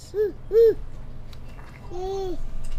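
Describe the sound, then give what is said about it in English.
Infants babbling and gurgling in a daycare infant room for babies from 6 weeks to 18 months: two short cooing sounds in quick succession, then a longer, softer babble. “In the infant room at Gold Creek Child Development Center, children ranging from 6 weeks through 18 months nap, play, and gurgle under the watchful eye of their teachers.”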